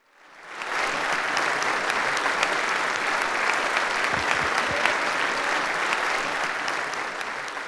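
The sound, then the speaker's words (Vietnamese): Sustained applause fills the US Congress chamber for Ukrainian President Zelensky after he recalls the 11 September 2001 attacks. Many hands clap in a dense, steady clatter that swells within the first second and holds evenly to the end. “Ông Zelensky cũng nhắc nhở Quốc hội đến vụ tấn công ngày 11 tháng 9 vào Tòa Tháp Đôi hồi năm 2001 và nhận được sự hoan nghênh nhiệt liệt.”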